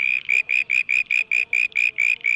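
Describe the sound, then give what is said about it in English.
A male southern brown tree frog gives its mating call, a rapid, evenly spaced train of about a dozen high, buzzy pulses, steady in pitch and loudness and heard alone. “That's the sound of a male southern brown tree frog looking for a date.”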